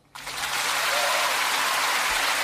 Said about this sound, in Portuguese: queria pedir um forte aplauso para essa cidade tão bonita